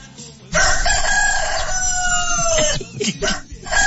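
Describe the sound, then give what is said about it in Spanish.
A rooster crows in one long, loud, steady harmonic call lasting about two seconds, followed by a few shorter, rougher bursts. “Hijo, el canto del gallo. El canto del gallo.”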